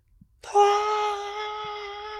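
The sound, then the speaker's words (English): A voice imitates the pained scream of an animal that has just bitten a porcupine: one loud, sustained wail that starts abruptly and holds a steady pitch for nearly two seconds before easing slightly. “And he just screams out in pain.”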